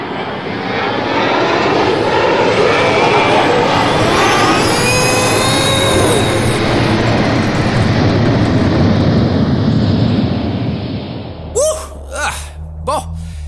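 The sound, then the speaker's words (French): A spacecraft taking off: a loud, steady engine roar that holds for about eleven seconds, then cuts out and gives way to brief vocal sounds. “Décollage!”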